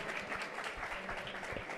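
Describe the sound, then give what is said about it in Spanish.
At a live vegan comedy event in Madrid, the audience gives a short burst of brisk, dense clapping from many hands, lasting under two seconds. “Bueno, pues muchas gracias por tu aporte como tributo. ¡Otro aplauso para el tributo!”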